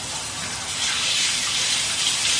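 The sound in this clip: Water rushes in a bathroom as if being flushed, a steady gushing hiss that grows slightly louder partway through and carries on to the end.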